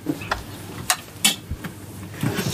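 A refrigerator drawer packed with sauerkraut is pulled open, giving a few sharp clicks and knocks over faint rustling.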